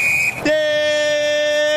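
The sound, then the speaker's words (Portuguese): Referee's final whistle ending a football match between Grêmio and Corinthians in Porto Alegre: a short sustained piercing tone gives way to a loud, steady, buzzing tone that holds to the end. “tira Gabriel Paulista, volta com o Grêmio na esquerda quando apita o árbitro paranaense Lucas Torezin”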